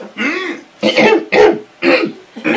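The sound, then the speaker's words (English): A person deliberately clears their throat in an exaggerated way while playing a role-playing game. Five loud, harsh, raspy bursts come in quick succession, each separated by a brief pause. “That's the in-character clearing the throat.”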